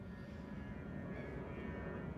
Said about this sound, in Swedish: nu kommer ett flygplan.